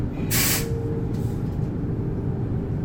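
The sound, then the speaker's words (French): A train arriving at a station in Saint-Chamond: a steady low rumble throughout, with a loud burst of hissing air early on and a fainter second hiss shortly after. “Ah mince, on arrive en gare.”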